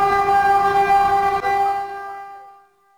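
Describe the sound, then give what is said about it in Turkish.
A high-speed train's horn blares a loud, steady chord of tones, holding for about two seconds before fading away into silence. “Hızlı tren yaklaştıkça endişe arttı.”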